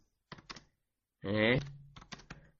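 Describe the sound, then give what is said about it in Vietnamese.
Hollow wooden tapping struck in place of a bell during Pali chanting, a few sharp taps followed by a short sustained chanted voice and then another cluster of taps. “Chờ mấy người này, tôi không có cầm bi được cho nên tôi phải gõ thôi.”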